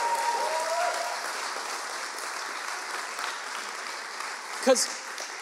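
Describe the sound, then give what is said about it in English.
A church audience claps hands together in a steady, sustained wash of applause, with voices mixed in and one sharp, louder hit near the end. “I need someone to clap their hands today”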